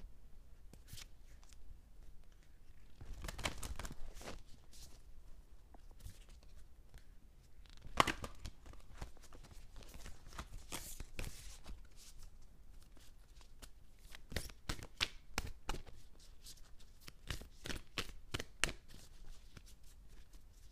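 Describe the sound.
A deck of self-care cards is shuffled and one card is drawn. Many faint, crisp papery snaps and flicks come in irregular bursts across about twenty seconds, with no talk.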